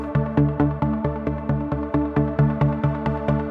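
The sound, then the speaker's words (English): A synth ostinato opens the song alone: a steady, evenly spaced repeating pulse of bright, resonant synth notes with a firm low end, each hit decaying quickly before the next, holding a constant mechanical rhythm throughout. “Now, the song starts with what I'm going to call a synth ostinato, which just means a repeating rhythm. And it will go from the beginning of the song to the end. But right at the beginning, it's the only thing happening.”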